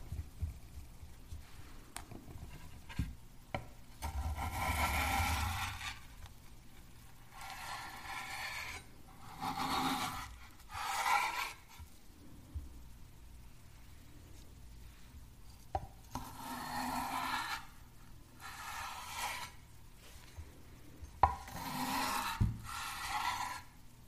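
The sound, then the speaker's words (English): A knife slices food into smaller pieces, trimming off the little nooks and extras. Faint rasping, scraping strokes come in several separate bursts, with quieter stretches between them. “cutting out all the little nooks and extras, and slicing them, slice them into smaller sizes.”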